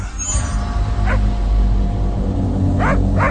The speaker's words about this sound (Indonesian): aku mendengar suara lolongan anjing dari dalam terowongan itu